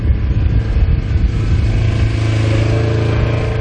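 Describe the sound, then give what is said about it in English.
Loud, steady engine drone of an all-terrain vehicle driving along a levee beside the Illinois River, a continuous mid-pitched motor hum that holds even throughout. “patrols the levee in an all-terrain vehicle”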